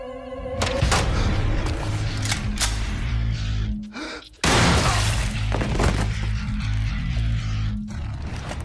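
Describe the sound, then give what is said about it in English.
A loud fusillade of gunfire erupts as bodyguards shoot a doctor in a scene from Repo! The Genetic Opera, with dense overlapping shots, a short break midway, then another heavy burst. “Bodyguards blow that doctor away. Yeah, they just kill him. Yeah, just for being the messenger. They shot the messenger.”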